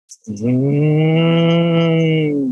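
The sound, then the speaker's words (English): A cow gives one long, low, steady moo that stays loud for about two seconds, after a brief soft sound at the start. “But the idea is that the sound of a cow,”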